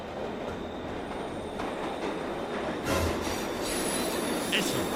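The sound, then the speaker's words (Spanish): An underground train pulls into a station platform, its wheels producing a steady, loud metallic rumble with a brief high squeal of the wheels partway through. “escuchó la llegada del tren”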